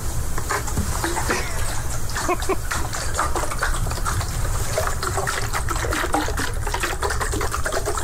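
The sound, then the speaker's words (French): Water sloshes inside a large bottle as it is shaken, making a continuous, irregular splashy rush with many small bursts at fairly even loudness throughout. “Elle abrasse une bouteille avec de l'eau dedans.”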